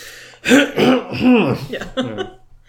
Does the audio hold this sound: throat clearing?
yes

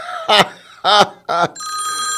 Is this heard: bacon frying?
no

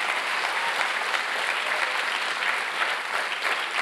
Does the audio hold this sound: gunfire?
no

